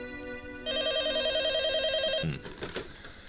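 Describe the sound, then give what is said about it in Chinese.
A telephone rings with a single loud, steady electronic warbling burst lasting about a second and a half, followed by quieter shuffling sounds. “可就在这个时候，电话铃响”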